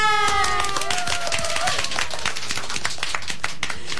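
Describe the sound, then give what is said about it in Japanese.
Studio gallery audience applause, crisp individual claps forming a brisk, dense patter throughout, with voices calling out over the clapping in the first couple of seconds. “ギャラリーの皆さんありがとうございます。 嬉しいですね、拍手の数。”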